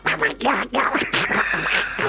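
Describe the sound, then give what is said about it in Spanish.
A voice imitates a duck, giving several rapid, nasal, raspy quacking bursts in a loud, jabbering run. “Estoy acá con el pato. ¡Pato, vení para acá!”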